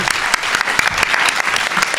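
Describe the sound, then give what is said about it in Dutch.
Applause breaks out for a departing guest, a dense, unbroken patter of many hands clapping at a loud, even level for about two seconds. “Applaus.”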